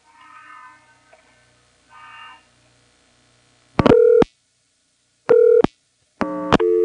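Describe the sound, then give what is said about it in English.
Telephone line tone following a recorded intercept message on a home phone line: three loud, buzzy tone bursts rich in harmonics, separated by short gaps, after a few seconds of faint, low murmur. “Now, the amount of time I was on hook there is actually longer than the full duration of the normal tone that it plays.”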